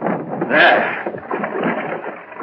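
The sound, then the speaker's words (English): Water rushing through the opened sluice of an old mill as the water wheel starts turning, a continuous churning rush that swells early and then holds steady. “Yes, I think it opens the sluice, starts the mill wheel turning. It does? Then let's try it. See if it still works.”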